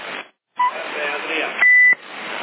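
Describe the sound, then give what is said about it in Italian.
A CB radio beep: one loud, steady electronic tone lasting about a third of a second, heard between stretches of voices talking over the radio channel. “E che sto bip?”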